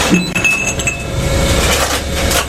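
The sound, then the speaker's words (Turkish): A glass bottle clinks and breaks as it is thrown into a recycling collection point, heard over a steady mechanical rumble that runs through the whole clip. “Kırılıyor. Bir şişe atıldı, bir kutu geri dönüşüme kazandırıldı.”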